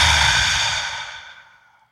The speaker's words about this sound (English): Just take a huge breath in through your nose and breathe out through your mouth.